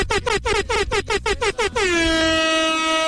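A vehicle's air horn sounds to announce an arrival on a rainy Saturday morning: a rapid run of many short, loud blasts, then one long steady blast that holds to the end.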